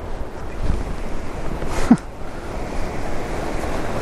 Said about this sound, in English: This is going to be impossible with this wind.